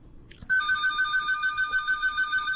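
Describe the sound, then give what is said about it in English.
Electronic telephone ringtone starts abruptly after a brief quiet moment, a bright, high warbling tone pulsing in a rapid, steady trill at constant loudness. “Is that your phone? It is? No, I turned mine off. Is that your phone? I don't know what the hell it is. Oh, it's this phone.”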